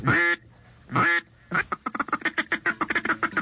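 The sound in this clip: Duck greeting and feed calls: two drawn-out nasal quacks, then a fast, rhythmic string of short, clucking quacks, with no talk over them.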